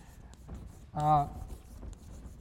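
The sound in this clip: Faint scratchy writing on a board during a real estate finance lecture, soft and continuous, with a brief voice partway through.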